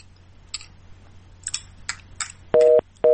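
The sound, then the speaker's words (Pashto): A telephone line goes dead into a busy tone: a few faint clicks and taps, then two loud, flat beeps of steady pitch separated by a short gap. “ټلیفون قطع شو”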